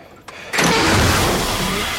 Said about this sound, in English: He slides a metal cylinder over the pole, climbs onto the tractor and pulls a red lever.